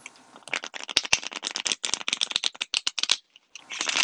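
Playing cards are shuffled before one is pulled, giving a rapid run of crisp riffling clicks, fairly soft and alone, with a brief pause before the shuffling resumes.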